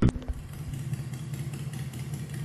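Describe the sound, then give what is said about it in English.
A vehicle engine is put into gear. A sharp clunk at the start gives way to a steady, low, rumbling engine note that holds evenly to the end. “I put Mary Lou into gear and begin my exit.”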